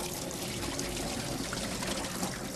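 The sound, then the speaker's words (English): Cold water runs steadily over bean sprouts being rinsed clean, a soft, even hiss and splash that holds at a constant low level throughout. “Next, we're going to need some bean sprouts. Okay, make sure you use cold water, and you want to wash it nice and clean”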